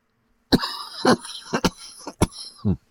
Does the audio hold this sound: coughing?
yes